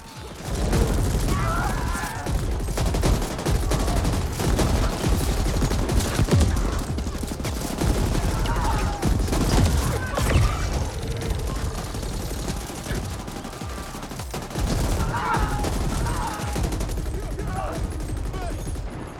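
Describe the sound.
Gunfire in a video game firefight, with many rapid shots and automatic bursts crackling on and off across the stretch while players talk over the shooting.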